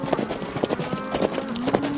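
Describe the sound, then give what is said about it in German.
Horse hooves clip-clop as a rider approaches on a ranch while a runaway cow is being herded back, making a steady, even, moderately loud beat that runs through the whole stretch. “Oh, da kommt Wyatt angeritten.”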